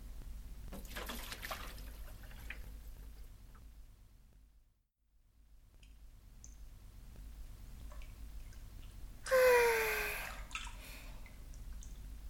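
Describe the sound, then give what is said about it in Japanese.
Water pours and splashes as a soapy body is rinsed off in a bath. A steady wet trickle runs, drops to a brief pause, then builds back, and a louder rushing gush comes near the end. “それじゃあ、あわあわになっちゃった体を流しますね。”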